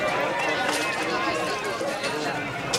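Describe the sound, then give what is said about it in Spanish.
A crowd at a street market where traders lay their goods on cloths spread on the ground: a dense, continuous babble of many overlapping voices that stays at a steady level. “La gente pasea por un mercadillo donde los comerciantes exponen sus mercancías sobre telas extendidas en el suelo.”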